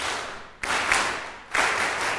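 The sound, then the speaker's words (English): Group of people clapping out the rhythm of a melody they just sang, heard as two sudden bursts of many hands clapping together, each followed by a short run of sustained clatter. “I want you to clap what you just sang, but don't sing it. So sing it in your head, but just clap the rhythm.”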